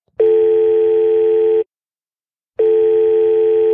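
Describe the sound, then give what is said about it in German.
Ringing tone of an outgoing Skype call: two loud, steady, long tones, each about a second and a half, separated by a short silent gap, with no voices. “Und dazu werden wir die jetzt via Skype anrufen und ein bisschen über ihren Podcast ausfragen.”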